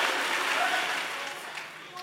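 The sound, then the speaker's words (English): Audience at a speech clapping hands angrily, a dense, even wash of applause that slowly thins toward the end. “And clap your hands angrily and say, I change this nonsense.”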